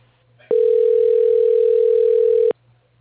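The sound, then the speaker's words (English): A steady telephone tone sounds while a call is transferred to voicemail: one unbroken, mid-pitched tone lasting about two seconds with no talk, over a faint low hum on the line. “Okay, I'll transfer you.”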